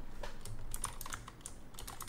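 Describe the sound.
Many light keystrokes tap on a computer keyboard in quick, irregular succession, faint and alone, as someone types notes while preparing a tabletop role-playing game campaign.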